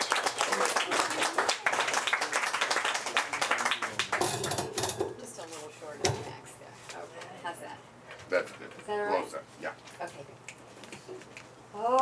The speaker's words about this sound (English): So give her a hand, ladies and gentlemen.